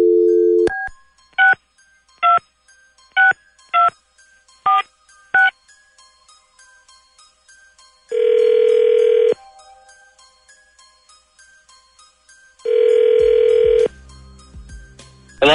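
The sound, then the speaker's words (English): A telephone number is dialed: a short run of touch-tone beeps follows a brief dial tone. After a pause, the line rings twice, each ring a long, loud burst separated by silence. “Well, let's find out. Dialing at random.”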